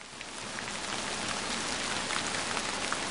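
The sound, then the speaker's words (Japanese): Heavy rain pouring down from a suddenly clouded sky, a steady, dense hiss of countless drops that stays even and fairly quiet with no break. “于是这时、很不可思議的天空突然风云密布。下起了大雨，”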